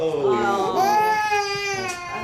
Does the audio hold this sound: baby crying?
yes